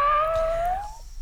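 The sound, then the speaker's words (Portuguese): A single cat meow, a drawn-out tonal cry that holds steady and rises slightly in pitch before fading after about a second, followed by a brief click. “Manda um miado pra mim.”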